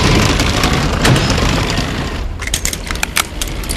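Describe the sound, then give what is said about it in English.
A tracked wartime vehicle with a motorcycle front end and tank treads rumbles as it pulls away in a film. A dense, loud rumble gives way to sharper rattling and clanking bursts in the second half. “The Rabbit has a motorcycle's front end and tank treads in the back. Ryben sits with his back to the driver as they pull away.”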